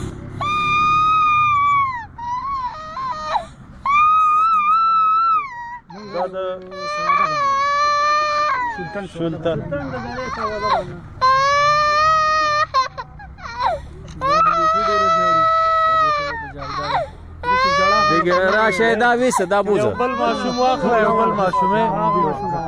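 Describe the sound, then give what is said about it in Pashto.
Children crying and wailing, frightened by gunfire, with loud, sustained high-pitched wails broken by sobs and whimpers that overlap and carry on without pause. “ماشومان دزو ویرولي اوس هم په جړا دي.”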